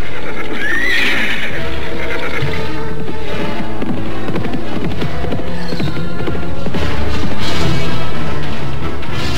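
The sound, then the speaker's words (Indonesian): A white horse gives a loud whinny near the start, set against a dense, busy wash of hoof clatter and other noise that continues throughout. “Loh Barda kemudian memerintahkan Somar untuk mengambil kuda putih yang ternyata adalah si Tunggul untuk tunggangan Anting Wulan.”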